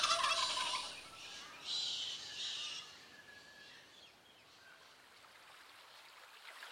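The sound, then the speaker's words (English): Wild turkeys gobbling: a few loud, rough bursts of calling in the first three seconds, then fading into a quieter, steady hiss. “Wild turkeys trot. Wild turkeys.”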